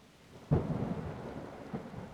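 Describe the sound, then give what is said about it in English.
A heavy thunderstorm: a loud thunderclap breaks and rolls out over steady rain, followed later by a smaller rumble. “Oh my god. This storm is getting insane.”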